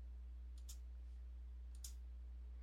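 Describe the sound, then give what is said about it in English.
Three faint, sharp computer mouse clicks, spaced unevenly, over a steady low electrical hum and otherwise quiet background. “Give me a second to click into it.”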